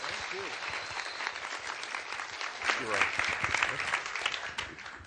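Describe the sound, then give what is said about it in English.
Audience applause welcomes a guest speaker from a church at a morning session. The clapping is dense and sustained, swelling slightly partway through before tapering at the end. “Can we give him a huge welcome as he comes to speak to us this morning?”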